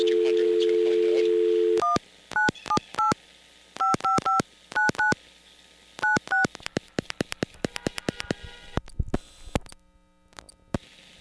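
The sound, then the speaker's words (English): A telephone number is dialed on touch tones: a steady dial tone is held, then cut off by many short paired beeps in quick irregular clusters, with faint clicks near the end. “Cannot be completed as dialed. Please check the number and dial again.”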